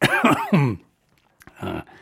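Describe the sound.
Coughing and throat clearing after swallowing wrong: a quick cluster of harsh coughs, a short silence, then another rough cough.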